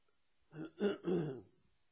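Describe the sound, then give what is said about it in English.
Someone clears their throat mid-sentence during a spoken Bible reading, with three short rasping bursts in quick succession. The sound is fairly quiet and stands alone with no talk over it. “Let me get that thing out of my throat.”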